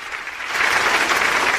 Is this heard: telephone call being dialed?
no